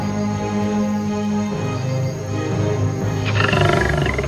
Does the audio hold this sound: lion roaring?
yes

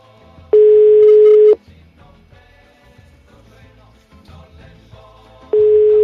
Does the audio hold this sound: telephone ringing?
yes

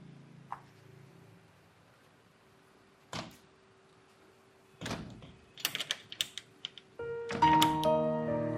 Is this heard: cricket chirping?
no

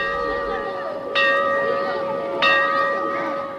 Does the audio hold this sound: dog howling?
no

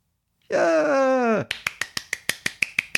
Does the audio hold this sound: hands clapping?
yes

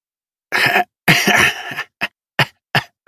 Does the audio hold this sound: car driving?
no

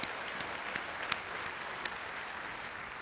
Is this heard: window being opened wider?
no

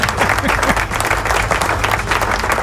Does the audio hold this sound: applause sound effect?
yes

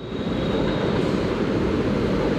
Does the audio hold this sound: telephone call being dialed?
no

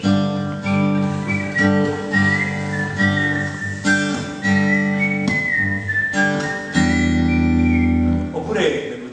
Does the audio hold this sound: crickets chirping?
no

